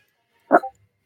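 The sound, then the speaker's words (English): A female dog gives one brief, sharp bark, a short two-part burst that stands out loud and alone against near silence. “What is she barking at?”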